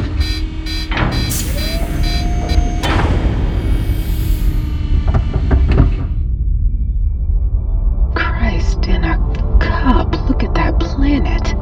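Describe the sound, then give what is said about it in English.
The airlock of the spaceship Mos Dorian opens as a layered mechanical sequence. A steady hum and sharp metallic clunks lead to a quieter pause, then a flurry of rapid clicks and clatters. “Mos Dorian airlock opening in 3, 2, 1.”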